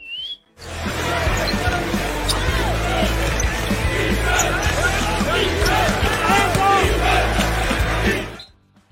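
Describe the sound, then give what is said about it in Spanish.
A basketball bounces repeatedly on an NBA hardwood court amid a constant roar of crowd noise. The sound runs loud and dense throughout, then cuts off near the end. “hay que empezar a botar el balón porque nos vamos a las duelas de la NBA.”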